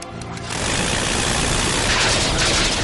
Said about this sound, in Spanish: Orden de abrir fuego, repito, orden de abrir fuego. Cambio. Aquí C-01, recibido. Abriendo fuego. ¿Preparados? ¡Fuego!